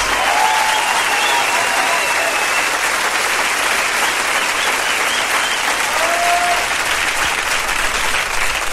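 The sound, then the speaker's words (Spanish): Audience applause, a dense, continuous wash of many hands clapping at high level, holding steady without a break for the full length. “Ese aplauso”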